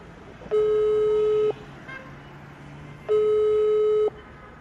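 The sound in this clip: A telephone ringing tone plays while a call is placed: two long, steady, mid-pitched electronic tones, each about a second long, separated by a pause of about a second and a half, over a low background hum.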